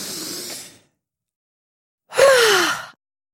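A deep breath in and out: a soft, airy inhale, then a short silence, then a louder, longer exhale with a voiced sigh that falls in pitch.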